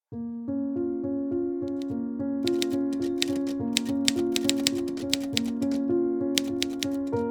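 Typewriter keys clacking rapidly and steadily while an obituary is being written, many sharp taps over a sustained tonal backing that shifts pitch in steps.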